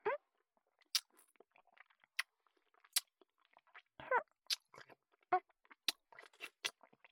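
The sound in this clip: Crunchy food being bitten and chewed gives many sharp, crisp crunches at an irregular pace, with softer mouth and chewing noises between them. The sounds are quiet, with no talking.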